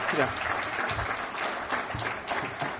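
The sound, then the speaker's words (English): Applause from the audience at an Alcoholics Anonymous meeting, a dense, steady clatter of many hands that continues for the whole clip with voices mixed in. “you guys picked that up real quick. In the States, we clap for that.”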